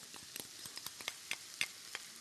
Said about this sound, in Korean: 아까 미리 만들어 놓은 소스 예. 잘 저어 주시고 잘 저어서 넣어볼게요.